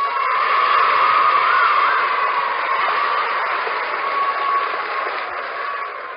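A studio audience applauds a show's opening, its clapping merging into a steady, hiss-like roar that slowly tapers off toward the end.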